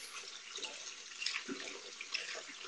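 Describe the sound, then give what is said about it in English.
Water runs steadily from a tap while hands are washed beneath it, a soft, faint hiss with small splashes and drips scattered through it. “I'm washing my fucking hands. Can I wash my hands?”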